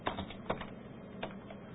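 Sparse keystrokes on a computer keyboard, a few soft, irregular clicks spread over a short stretch, quiet and with no voices.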